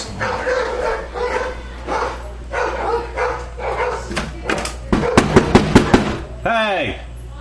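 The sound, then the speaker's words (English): Dogs barking at each other: after a person talks, a rapid burst of about five sharp barks rings out, followed by a yelping whine. “Dogs act like they never seen each other.”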